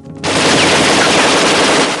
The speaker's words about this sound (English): Someone pops out of a doorway and fires an Uzi at Kersey.